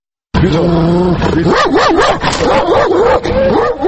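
Healthy, well-groomed Caucasian shepherd dog vocalizing: a loud, unbroken run of yelps and whines lasting several seconds, its pitch wavering up and down throughout.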